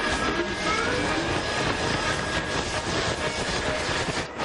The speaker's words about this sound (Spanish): Las hélices del avión arrancan.